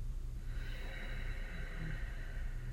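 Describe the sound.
A long, slow deep inhalation: a soft, airy hiss that starts after about half a second and holds steady to the end, alone over a low background hum.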